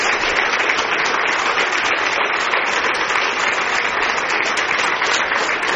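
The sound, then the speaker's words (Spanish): An audience at a religious gathering applauds in dense, steady clapping that stays loud and even throughout, with no voice rising above it. “Aplauso para el Papa Benedicto XVI.”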